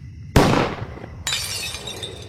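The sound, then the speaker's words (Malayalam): A pistol shot followed by window glass shattering. A sharp, loud burst decays quickly, then a second crash breaks into bright, sustained tinkling of glass fragments. “ഈ സമയം ആരോ കൈത്തോക്ക് കൊണ്ട് വെടിവെച്ച ശബ്ദം കേട്ട് ഞങ്ങൾ ഞെട്ടി വെടിയുണ്ട കൊണ്ട് ജനാലയിലെ കണ്ണാടി പൊട്ടിച്ചിതറി”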